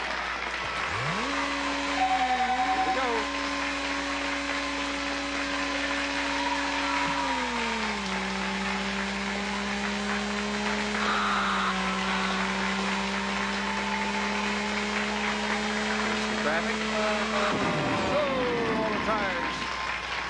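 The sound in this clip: Buzzy synthesized race car engine from the Pole Position II arcade game drives a track: a steady electronic drone that shifts pitch in a few abrupt steps and drops sharply near the end, with voices at times.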